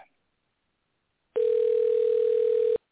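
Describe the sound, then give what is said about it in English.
A telephone line tone sounds while a call is being placed: one steady, pure, unchanging hum about a second and a half long that starts and stops abruptly after near silence. “we're going to be dialing him right now, and hopefully that'll go through”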